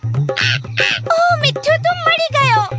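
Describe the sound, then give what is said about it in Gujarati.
A parrot calls from a high branch of a neem tree, a run of squawky, voice-like chirps repeated many times, rising and falling in pitch over a low, steady rhythmic thumping. “ત્યાં જુઓ, પેલા લીમડાના ઝાડની ઊંચી ડાળી પર એક પોપટ.”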